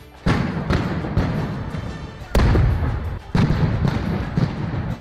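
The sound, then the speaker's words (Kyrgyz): Gunshots ring out during street clashes between demonstrators and police and troops in front of the government headquarters in Bishkek. Several sharp, loud reports come at irregular intervals over continuous rumbling background noise. “Бишкекте Ак үйүнүн алдында атышуу болуп атат.”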